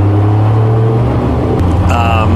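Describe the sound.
Historic racing car engines drone at the slow rolling start of a race during Monterey car week, with a Porsche in the field. A deep, steady, loud rumble and low hum carry throughout, with a voice talking over them.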